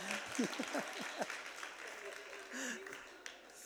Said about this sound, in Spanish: Un aplauso ahora sí.